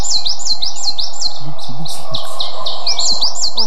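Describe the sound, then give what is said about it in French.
Coal tit song: many rapid, high, bouncing two-note phrases repeated in a steady rhythm, clear and fairly loud over a faint low background rumble, with no voices. “La mésange noire, qui adore les conifères, elle.”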